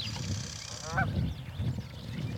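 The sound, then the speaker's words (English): Wild birds call in a quiet outdoor setting, with a short honking, goose-like call about midway over a low, steady rumble of background noise. “These birds were hitting in the mid-40s on our decibel meter.”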